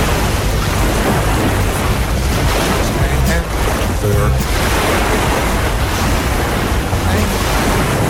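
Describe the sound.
Sea waves roll and crash in a loud, continuous, dense roar of surf that hardly varies in level throughout.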